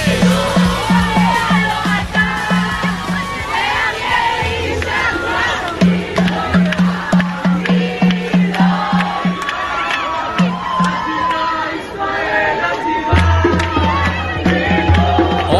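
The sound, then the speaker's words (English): A crowd celebrates at the airport in Tel Aviv with loud, continuous cheering and shouting. Repeated whoops and surges rise out of the din, and high children's voices are mixed in. “The audio you are hearing, celebratory mood, that is happening at the airport in Tel Aviv.”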